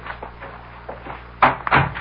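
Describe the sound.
A door opening and closing: soft faint rustling, then two quick, louder wooden clunks near the end.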